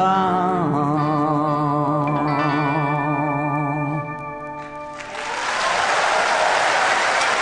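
Applause follows a live song performance at an awards ceremony. Sustained tonal music plays loudly for about five seconds, fades, and then dense, steady clapping from a large audience swells in and continues to the end.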